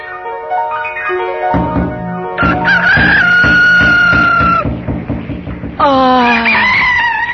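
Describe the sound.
A rooster crows repeatedly, its loud, drawn-out, harmonic calls rising and wavering over a steady background of other tones.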